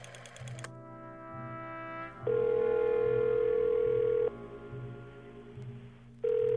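A telephone ringing tone sounds while a caller waits for their father to pick up. A short burst comes first, then a long steady tone of about two seconds, a pause, and the start of another tone over a low hum.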